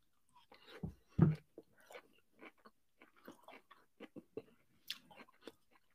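Green beans are chewed during a surf-and-turf mukbang meal. The soft, crunchy, wet bites come in an irregular run of many quiet chews, with no talking.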